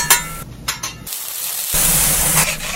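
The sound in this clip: Food sizzling on a bodega grill in a sandwich shop, a loud steady frying hiss with a few sharp clicks and scrapes early on.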